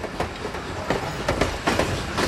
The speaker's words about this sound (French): Les trains rejoignent Soissons puis l'Allemagne.